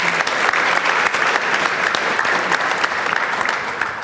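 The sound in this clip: Audience applause welcoming a speaker onto a panel about arts and music festivals: dense, steady clapping that holds a loud, even level for about four seconds.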